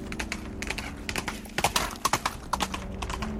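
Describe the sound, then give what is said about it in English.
Galloping horse hooves cross a flat Gobi desert plain, a quick, rhythmic run of sharp clip-clop beats that grows clearer and louder in the second half over a steady low background. “A rider on horseback, galloping across the stark flatland of the Gobi desertscape and towards the imperial yurt, came into sight.”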